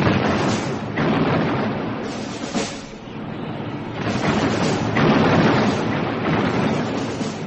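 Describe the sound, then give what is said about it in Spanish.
Artillery cannon fire roars in a dramatized Battle of Austerlitz. Heavy, rumbling booms blur into one another, swelling and easing in a few broad waves with no clear pause between them. “Un intenso duelo artillero.”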